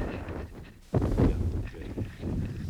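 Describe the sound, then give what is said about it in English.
Wind buffets a microphone high on Mount Tabor, the highest of the Lower Galilee mountains: a low, rumbling roar that dips briefly, then surges back in strong gusts. “I hope the wind is not making too much noise. We're at a great height up here.”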